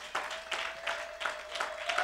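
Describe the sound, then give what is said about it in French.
Congregation clapping during a church worship service: soft group claps falling into a steady rhythmic beat, quiet overall, with a thin sustained tone underneath. “Est-ce qu'on peut acclamer le Seigneur un moment?”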